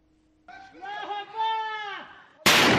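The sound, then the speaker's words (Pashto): Gunfire from Afghan soldiers in the centre of Badghis province: a single sharp, loud burst near the end, preceded by a raised, sustained voice. “افغان عسکر د بدغیس ولایت په مرکز کې ګولۍ وروړي.”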